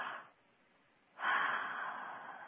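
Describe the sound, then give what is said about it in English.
A person takes a deep breath during a guided breathing exercise. A soft, airy inhalation swells after a short quiet pause and trails off gently, with no talk. “Everybody just take a deep breath.”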